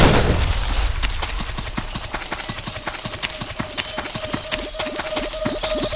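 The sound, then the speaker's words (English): Automatic rifle fire in a video game, sounding like a machine gun: a loud, fast, steady stream of many evenly spaced shots rattling on without pause. “Automatic rifle. Automatic rifle? Not, sounds like a machine gun.”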